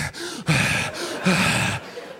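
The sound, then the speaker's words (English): A voice imitates heavy, excited breathing: a run of ragged, gasping breaths, each loud and breathy, coming in quick uneven succession with brief dips between them and no words. “And my buddy's just, I've known this dude for years, but I'd never seen, you don't know a man until he takes the life of another living thing, man. He's breathing all heavy.”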